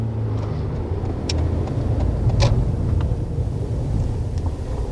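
Steady low road and engine rumble inside a moving car, a constant droning hum with a few faint clicks and ticks over it and no voices.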